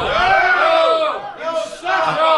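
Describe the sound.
A crowd cheering loudly in a burst of overlapping shouts and whoops, with voices rising and falling across a couple of swells.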